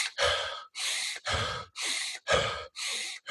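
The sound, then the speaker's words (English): Loud deep breathing during a breathing exercise, with air drawn in through the nose. About six strong, evenly spaced breaths follow each other in a steady rhythm, each separated by a brief silence. “So you just pretty much inhale through your nose,”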